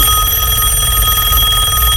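A telephone rings with a steady, unbroken electronic ring of bright sustained tones. It stays loud and even for the whole clip and plays alone, with no voices.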